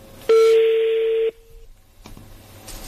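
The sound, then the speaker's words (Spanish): A telephone touch tone sounds as a number is redialed: a single loud, steady beep lasting about a second, followed by quieter line noise and a click. “A ver, marco de nuevo.”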